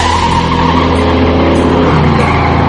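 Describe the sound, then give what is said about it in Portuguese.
Loud, continuous engine roar of a taxi as the accelerator is floored, a dense revving drone that holds strong and unbroken from start to finish. “E aí ele pisa no acelerador, maluco.”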